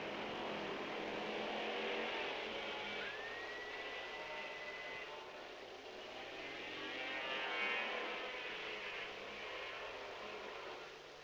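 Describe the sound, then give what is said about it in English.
Roar of 750cc racing motorcycles, many of them 500s, passing through Ballabeg on the first lap of a road race, a steady, faint blend of engine noise that swells and fades twice. “once again, we get that tremendous first lap noise at Ballabeg. 750 machines this time. Many of them are 500s, but there's not a great deal in the noise factor.”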